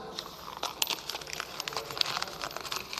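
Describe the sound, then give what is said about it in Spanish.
A sheet of paper crumpled by hand gives faint, crisp crinkling and crackling in a quick series of bursts over about three seconds, with no voices. “Que todo esto que acabo de decir se convierta en esto, en un papel arrugado, en ruido, en nada.”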